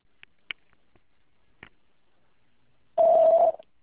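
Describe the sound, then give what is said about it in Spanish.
A single steady mid-pitched voicemail beep rings out loudly for about half a second, coming after a few faint, scattered clicks on a phone line. “Por favor, deje un mensaje en la casilla de voz después de la señal.”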